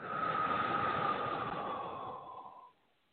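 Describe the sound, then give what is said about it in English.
A long, deep breath out during a guided heart-centred healing meditation: one steady, breathy exhale lasting nearly three seconds, soft and even before trailing off into quiet. “And we just take a nice deep breath right here. And breathe out.”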